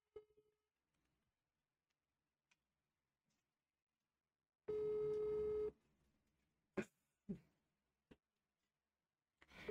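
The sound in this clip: A phone call ringing on speakerphone: one long, steady electronic ring tone, with a few sharp clicks scattered before and after it in otherwise quiet surroundings.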